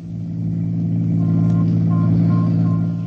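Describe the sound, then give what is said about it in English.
Steady low engine drone of a police homicide sedan on the move, a continuous rumble with gentle swells and no talk. “there I was in Urban's homicide sedan on my way out to play quiz with Mrs. Webb. During the ride, Urban gave me a quick rundown on the events surrounding Matt Webb's murder.”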